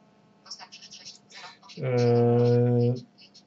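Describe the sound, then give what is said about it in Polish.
A phone rings with an incoming call. A single steady, buzzing tone holds for just over a second after a stretch of speech. “Ktoś tu do mnie jeszcze dzwoni, ale to oczywiście rozłączymy.”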